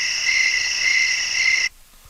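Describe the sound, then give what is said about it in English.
A high, steady cricket-like trill holds one bright, even tone for under two seconds, then cuts off abruptly into near silence. No talking is heard. “I'm going to go crickets.”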